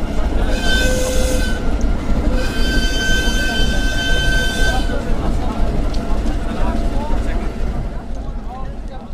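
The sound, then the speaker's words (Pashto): A freight train loaded with Chinese goods arrives by railway at the Hairatan border port in Afghanistan, rumbling loudly with wheel clatter. Two drawn-out horn blasts sound, the second much longer, then the heavy rolling continues alone. “په لومړي ځل د وسپنې پټلۍ له لارې د چین د سوداګریزو توکو لومړنی کاروان افغانستان ته راورسید.”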